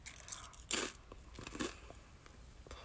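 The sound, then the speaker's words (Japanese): Crisp crunching as edamame chips from a Lawson convenience store, large individual pieces, are bitten and chewed; a few crunches, two of them louder, spaced over a steady low background. “ローソンさんの方が枝豆チップスの大きさ、1枚1枚の大きさは大きいです。食べてみます。”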